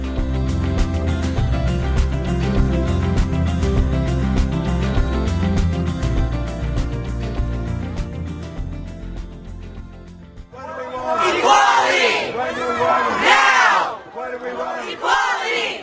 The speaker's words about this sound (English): On Point, the sound outside the Supreme Court there of gay marriage advocates chanting